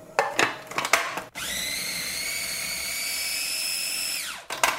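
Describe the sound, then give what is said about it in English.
Food processor blending ripe avocados: a few clattering knocks, then the motor starts abruptly into a steady high whine for about three seconds before winding down. “that I'm going to put in a food processor. So I'm gonna slice them, remove the pit, and scoop them into the food processor.”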